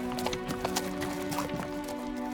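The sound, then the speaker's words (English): A caravan of horses gallops into a dark, empty desert, their hoofbeats rapid and uneven over a steady tonal background. “A caravan of horses galloped into the dark, empty desert toward Chalk Hill”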